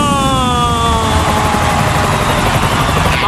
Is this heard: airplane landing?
yes